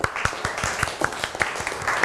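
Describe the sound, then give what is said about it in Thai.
Classroom applause for a student, made of many scattered hand claps in a brisk, uneven patter at moderate loudness. “ยอดเยี่ยมมากปรบมือให้เพื่อนหน่อยครับ”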